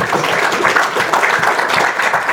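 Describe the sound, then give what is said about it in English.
A church audience applauds, a thick, continuous patter of many hands clapping at once, steady and fairly loud from start to finish. “Give the Lord a clap offering tonight.”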